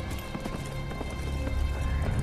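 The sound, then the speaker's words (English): Hooves of horses ridden across a wide, dusty plain: a steady run of overlapping clip-clop beats over a low rumble, with no talk. “Tarla and Matthias ride across a wide, dusty plain towards the dead, bleached trees”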